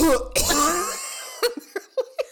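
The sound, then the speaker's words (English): A person imitates an exaggerated cough with the tongue stuck out and the mouth uncovered: a short, harsh, wet burst, followed by a few quick, breathy giggles. “You've seen people that cough like that. They like stick out their whole tongue and don't cover their mouth.”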